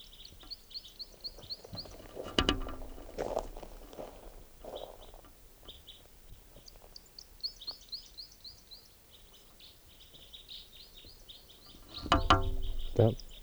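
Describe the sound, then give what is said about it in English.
Faint, high bird chirps come in quick repeated runs throughout. Low thuds break in briefly near the start and again near the end. “Here's that bird.”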